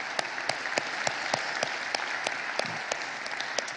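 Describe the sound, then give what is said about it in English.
Church audience applauding in the room for the online and television audience, a steady stream of sharp, crisp hand claps at moderate loudness with no talking. “For those of you here in the room, would you please give our online television audience a big hand?”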